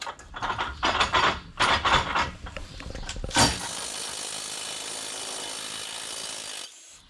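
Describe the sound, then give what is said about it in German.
Rough scraping and grinding from loosening a rusted screw: several irregular rasping bursts, then a sustained, steady, loud hissing rasp lasting about three seconds before it stops. “Ich kriege die Schraube hier nicht gelöst.”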